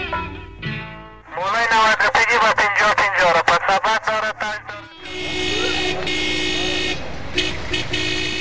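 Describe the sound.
Car horns honk in traffic: a quick run of many short toots, then a long, steady blare of horn tone with a few brief toots near the end.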